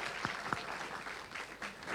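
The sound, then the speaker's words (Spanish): Audience applause for the organizers at the opening of a university fair, a quiet, steady wash of clapping with a couple of sharper individual claps near the start. “Vamos a aplaudirlos así, les agradecemos a todos ellos que hicieron posible esto.”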